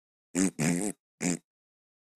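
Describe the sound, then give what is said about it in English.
A voice imitates a slow, chuggy, sludgy guitar sound that resembles farts. It makes three low buzzing bursts, the second the longest, and a brief fourth one begins at the very end. “chuggy, uninteresting, slow. It just sounds like farts. It just sounds like,”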